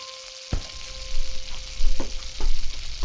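Bacon frying in a pan, a loud, steady crackling sizzle with a low hum underneath, broken by a few sharp clinks as the food is stirred.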